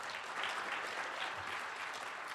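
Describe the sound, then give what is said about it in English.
Faint, dense audience applause for the panelists at a panel discussion on Zionism and U.S. imperialism: a continuous wash of many hands clapping at an even level throughout. “let's give a claps for our panelists here today”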